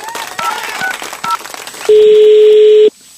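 Telephone dialing tones as a call is placed: two brief beeps over a busy, noisy background, then one loud, steady tone held for about a second before cutting off.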